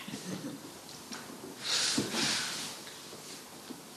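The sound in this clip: Someone blows their nose into a tissue during a sermon, giving a brief, faint breathy burst that swells and then trails off against quiet room noise.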